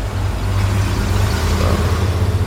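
A car drives slowly across open grounds, its engine a steady low rumble under a broad, even hiss that stays level throughout, with no talk.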